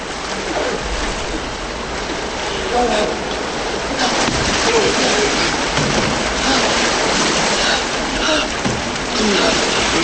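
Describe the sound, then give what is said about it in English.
People swimming toward the side through water, a loud, continuous churning and splashing rush that stays dense and heavy throughout. “They swim to the side.”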